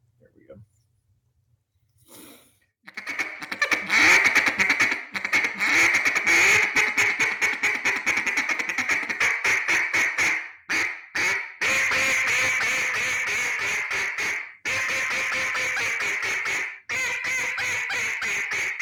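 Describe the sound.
A Makers Call Company duck call being blown: after a short quiet start, loud, rapid quacking runs of many notes go on for about sixteen seconds, broken by brief pauses.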